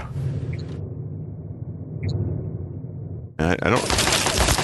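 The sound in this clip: Turret gunfire in a video game: a low, rumbling background gives way after about three seconds to an abrupt, loud, dense burst of rapid fire that carries on to the end.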